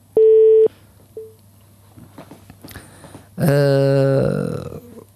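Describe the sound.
A steady telephone line tone sounds for about half a second as a listener call is taken, then a faint short blip, and a voice speaks.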